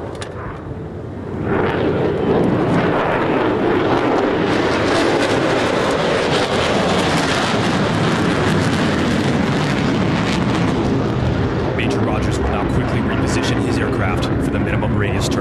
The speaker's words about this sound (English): Let's listen and look live real quick. From the right, on a knife's edge, the F-35C picture pass.